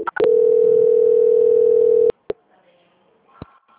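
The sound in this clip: Telephone tone during a call transfer, a loud, steady single tone holding for about two seconds before cutting off, followed by a couple of sharp clicks and faint line noise.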